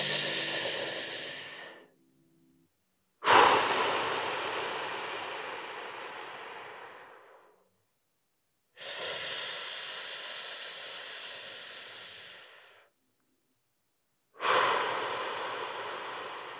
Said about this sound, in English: we can achieve that by these long, slow inhales and long, slow exhales. So if you were listening, all you would hear would be me like...